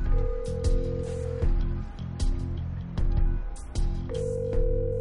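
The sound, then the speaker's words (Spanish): A telephone ringing, heard as a repeating electronic ring tone that sounds near the start and again near the end over a low rhythmic background pulse. “Venga, Is, cógeme el teléfono.”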